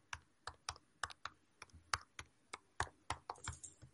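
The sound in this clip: Fast typing on a computer keyboard while entering a password: a quick, uneven stream of many light, crisp keystrokes, quiet throughout with no talk.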